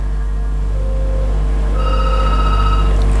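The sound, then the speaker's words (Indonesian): Ringing tone of an outgoing WhatsApp call placed to a caller, a steady electronic ring that enters partway through over a constant low hum and holds to the end. “gangguan teknis untuk telepon WA. Kita ke penelpon lagi kalau begitu.”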